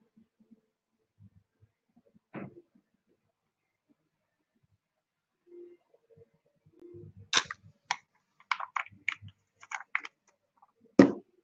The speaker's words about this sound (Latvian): Nu, labi, pagaršosim. Tātad uzpildam tanku.